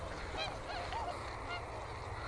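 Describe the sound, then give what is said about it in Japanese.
Swans calling in a rice field, a few short honking calls rising above a steady low rumble of background noise. “また白鳥たち行っちゃいましたね。白鳥たちを反対側に追い込みたい。”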